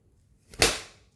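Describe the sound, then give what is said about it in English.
A single sharp slap as someone strikes their own feet in self-punishment, a crisp whip-like crack that decays over about half a second, alone with no talk. “You know what I'm hitting now? I'm hitting my feet.”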